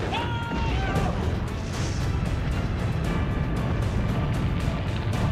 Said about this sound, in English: He's going to hit it. There goes the rockets.